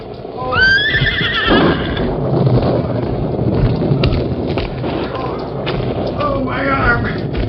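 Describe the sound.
Silver, the Lone Ranger's horse, lets out a loud, high whinny near the start, and a shorter one comes near the end, over steady rumbling noise with scattered thuds.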